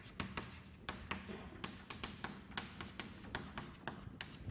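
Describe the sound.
Handwriting during a lecture on nuclear interactions: many short, scratchy strokes in an irregular rhythm, fairly faint, with no voices.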